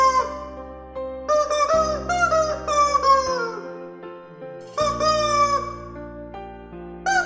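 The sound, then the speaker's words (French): A plastic toy chicken squawks out a rhapsody, with crowing, cluck-like notes over a sustained backing melody in a few long phrases. “Je t'ai dégoté la même rhapsodie au poulet en plastique.”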